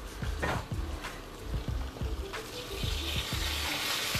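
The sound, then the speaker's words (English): Burgers frying in a pan: a steady, dense sizzle that runs throughout, with a few soft clatters on top. “These burgers still on? Mm-hmm. The burgers? Yeah, still on. I hope I didn't burn them.”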